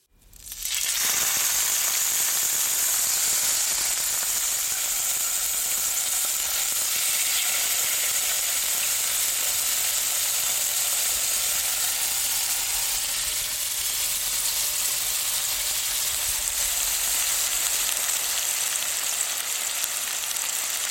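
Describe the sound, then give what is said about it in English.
A marinated bavette steak sears in a frying pan over a gas flame, giving a loud, continuous hissing sizzle that starts abruptly and holds steady for about twenty seconds. “That was the sound of non-enzymatic browning, amino acids searing, and deliciousness in formation. It was, of course, a piece of meat in a fry pan, sizzling in reaction to the heat underneath”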